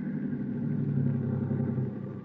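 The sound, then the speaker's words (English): A car engine rumbles low and steady as the vehicle pulls up, easing slightly toward the end. “All right, Professor, pull up for a minute. But I don't see any sign, Mr. Strickland. Are you sure? Stop the car.”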